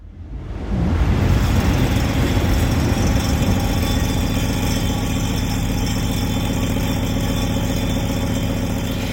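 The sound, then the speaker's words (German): Heavy rumble of a train rushing past, presented as part of a sound artwork; the roar swells within the first second, then holds loud and steady as a dense, unbroken drone to the end. “Heppernder Tisch heißt das Ganze und ich glaube, wir haben da die Bahn, die da vorbei brettert, gehört.”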